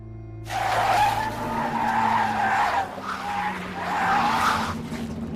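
Race cars skid at the end of a race in the animated film Cars, a loud sustained tire screech that swells twice and briefly dips between the swells, with engine noise beneath and no talking.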